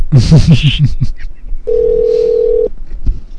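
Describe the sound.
Telephone ringing on a call to a motel front desk: a single steady tone holds for about a second after a short burst of talk, then cuts off abruptly.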